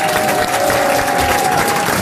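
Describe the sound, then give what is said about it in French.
Studio audience applause at a French television talk show: dense, steady clapping that stays loud from start to finish, with a thin, sustained whistle-like tone over it and no speech. “c'est un plaisir d'être applaudi juste parce qu'on a pissé.”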